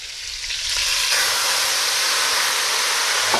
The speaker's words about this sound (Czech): Tak mám tady slivovice, mi tady stála, jak jsme si dělali čaj, tak já tam trošku slivovice a oflambuju to.